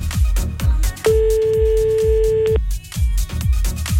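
A single long ringback tone from an outgoing telephone call on a French radio prank-call segment. The steady mid-pitched tone lasts about one and a half seconds over a loud, thumping rhythmic music bed.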